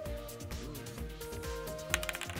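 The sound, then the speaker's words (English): A die rolled on a small table during a tabletop robot game, heard as a few brief clattering clicks near the end over steady background music. “I got some like some missile launchers, like like the three missile launchers strapped on the side of my my shin here, and I'm rolling it, rolling a die.”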